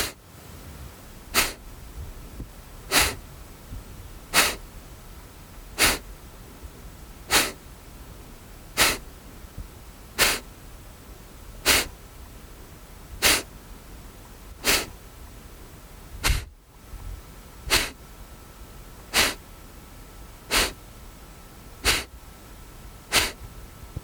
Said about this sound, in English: Let's do two more rounds of 10 breaths, so 20 breaths. Passive inhale, exhale swiftly.